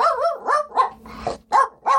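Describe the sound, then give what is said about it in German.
A dog barks in a quick series of loud, mid-pitched, harmonic barks with short gaps between them. It is heard alone, with one rougher, noisier bark in the middle. “der Snoopy, unser Podcast-Hund, will uns was sagen”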